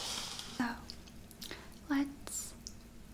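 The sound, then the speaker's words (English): Someone bites into and chews a vanilla macaron with soft, moist squishing mouth sounds. A few louder, crisper bites punctuate the quiet chewing. “I will eat. Okay, I just wanted to taste this vanilla one.”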